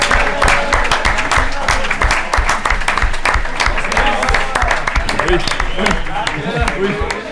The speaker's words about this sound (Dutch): Applaus! Applaus!